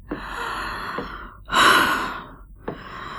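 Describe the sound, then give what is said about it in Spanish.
Heavy breathing from someone who has just climbed a flight of stairs: a few loud, gasping breaths, with one long, forceful exhale in the middle, heard alone without speech. “Respiro fuerte. Se acabaron los escalones. Respiro.”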